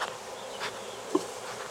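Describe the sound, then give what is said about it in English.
Honeybees shaken into a hive box along with their brood give a faint, continuous buzzing hum, with a brief slightly louder buzz partway through. “So, the fact that they've got brood and I'm shaking them in a box and they're all this discombobulated and are still behaving is a good testament to their temperament.”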